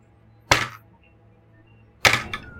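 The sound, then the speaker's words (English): Dice being picked up and handled during a tabletop role-playing game session: two short, sharp clattering knocks, the second followed quickly by a lighter tap, over a faint steady background hum. “I was just picking up the dice, getting it ready, so I apologize.”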